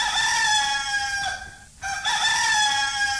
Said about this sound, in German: Was ist denn das? Das war der erste Hahnenschrei.